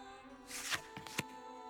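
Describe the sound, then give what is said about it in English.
A deck of tarot cards is shuffled for a fortune reading, with a few soft papery riffles and sharp snaps, faint over a steady tonal hum. “as you shuffle the deck, Feel your energy flow into the cards.”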